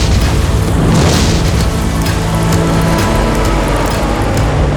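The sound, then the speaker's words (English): Flamethrower spraying fire onto a book, a loud, continuous roaring whoosh that holds steady throughout with no pauses. “Then she picks up a flamethrower, 喷火器, and sprays the book with fire.”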